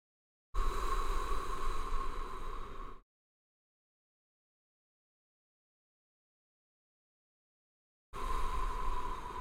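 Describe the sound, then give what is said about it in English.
Deep, slow breathing during a guided relaxation exercise: one long, soft breath of about two and a half seconds, then a stretch of silence, then a second breath that begins near the end. “Let's take a couple of deep breaths.”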